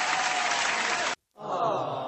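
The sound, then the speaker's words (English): Applause: a dense, steady burst of clapping that lasts about a second and cuts off abruptly. After a short gap, a softer sustained sound follows. “Applause? Applause and awe.”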